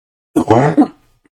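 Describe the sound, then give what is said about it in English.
A single short, rough cough, loud and isolated, lasting under a second and trailing off quickly. “sorry about the cough there”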